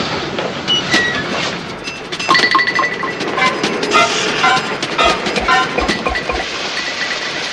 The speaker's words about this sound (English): A packed carriage on the next track slowly pulls away from the station.